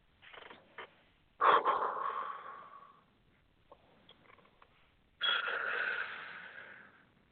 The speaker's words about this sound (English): take three nice deep breaths